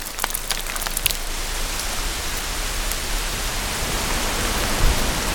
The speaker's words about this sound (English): It begins to rain.